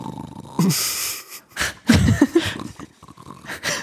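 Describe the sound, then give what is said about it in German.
A voice imitates snoring and sleep sounds with a few breathy snorts and wheezing inhales and exhales. The bursts are uneven, separated by short pauses, and vary from soft to fairly loud. “sie schlafen, hast du Schnarchgeräusche, Schlafgeräusche?”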